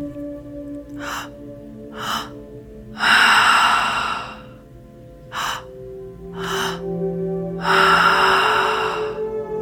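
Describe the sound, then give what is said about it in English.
Three-part breathing done entirely through the mouth, filling the belly, then the chest, then exhaling: two short, quick inhale bursts followed by one long, loud, airy exhale, with the pattern repeating twice over a faint sustained tonal background. “In through the belly, in through the chest, and out through the mouth. This entire breath pattern is all through the mouth.”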